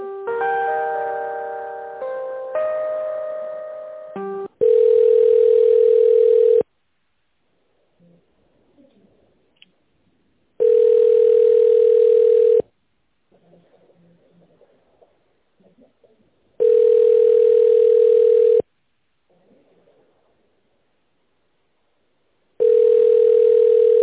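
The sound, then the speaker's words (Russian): Telephone line tones during a call transfer: a short electronic melody, then four long, steady, identical tones separated by even silences, with faint noise between them. “Я сейчас вас попробую соединить, если человек на месте. Одну секунду.”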